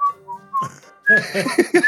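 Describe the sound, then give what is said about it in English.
A person whistles a short tune. It opens with a few clear, separate notes, then turns louder and busier with quick note changes. “He's going to be playing a tune that starts mimicking the whistling patterns he's hearing”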